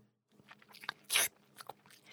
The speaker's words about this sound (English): Tony couldn't help picking a small yellow flower and licking it.